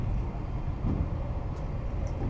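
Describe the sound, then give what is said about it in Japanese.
A rapid train bound for Izumoshi running, a steady low rumble with a faint hiss that holds even throughout with no distinct events. “快速列車出雲市行きです。次は安木に停まります。”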